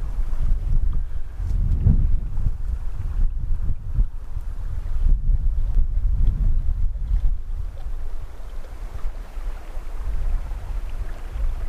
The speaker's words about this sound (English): Wind in the pines. Babbling brook.